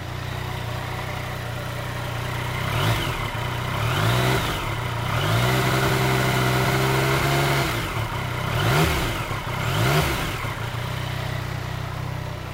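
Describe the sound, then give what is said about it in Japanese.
An engine revved over and over on top of a steady low idle. Several quick blips climb in pitch and drop back, and one longer held rev comes in the middle. “無駄にふかしてみましたけどね”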